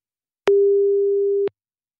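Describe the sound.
A single steady ringback tone heard while placing a telephone call: one clean, mid-pitched beep lasting about a second, framed by faint clicks at its start and end, alone with no voices.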